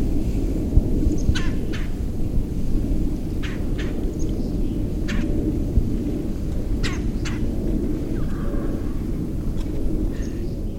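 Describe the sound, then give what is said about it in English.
Bird calls recorded outdoors while birding in Fargo: many short, sharp calls, some in quick pairs, spaced irregularly over a steady, loud low rumbling background. “I have no idea what bird calls those are. It was my first time ever birding.”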